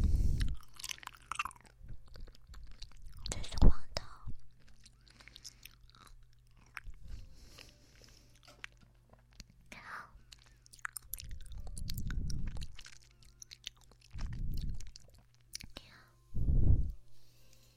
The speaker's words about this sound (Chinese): 好吃吗？喜欢姐姐喂你吃果冻吗？吃完这个就不吃了。